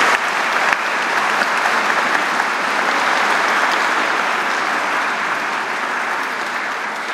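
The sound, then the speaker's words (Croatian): An audience applauds to greet performers, with dense, even clapping that stays loud and steady from start to finish, with no talk over it. “pa hajde pozdravite ih jednim pljeskom.”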